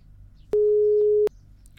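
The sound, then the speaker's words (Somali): A telephone busy tone sounds after a caller's line drops during a phone-in: a single steady, mid-pitched tone lasting under a second, alone over faint background hiss. “Dhigisaasina qadka telefoonka ayaa ka go'ay.”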